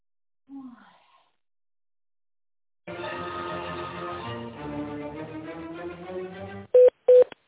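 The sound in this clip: Telephone keypad tones from a key press during an automated company phone menu: two short, loud, steady beeps at the end, after a long stretch of voice.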